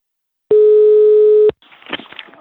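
A telephone line tone is heard as a call is placed: one steady, loud, buzzing tone lasting about a second, then softer crackly line noise.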